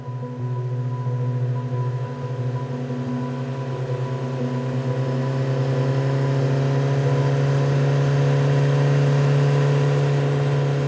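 A motorcycle engine runs steadily, giving a low, even droning hum with a constant tone, growing slightly louder toward the end, with no talking.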